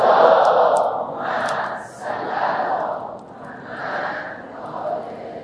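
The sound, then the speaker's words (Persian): An audience chants salawat aloud in unison: several drawn-out phrases of massed voices swell and ebb in waves, with no other sound. “آره حالا اگه خسته نشدین یه صلوات خوب خط بفرمایید.”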